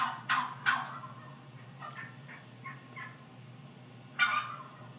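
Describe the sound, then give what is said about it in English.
A hen turkey yelping to call for a male: a few short, raspy calls, with two louder ones at the start and another near the end, and fainter yelps in between over a steady low background. “This is a female turkey. That's the noise that they make when they're looking for a boy turkey.”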